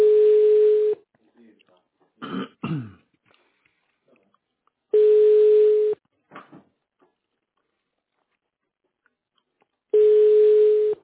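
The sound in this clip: A telephone ringback tone as a call goes unanswered: three long, steady beeps at a constant pitch, evenly spaced about four seconds apart, with a few brief faint noises in the gaps.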